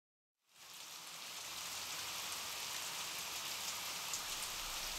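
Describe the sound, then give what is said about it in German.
Rain drums on city streets. After a brief silence it comes in as a dense, even hiss of drops that stays constant and fairly soft to the end. “Die Stadt empfängt ihn wolkenverhangen, Regen trommelt auf die Straßen.”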